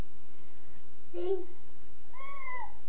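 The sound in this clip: A cat meows a couple of times, with short, fairly faint calls separated by a brief pause against a quiet background.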